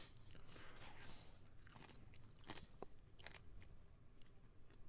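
Someone bites and chews a corn and peanut chip, a series of faint, crisp crunches spread irregularly over a steady background hiss.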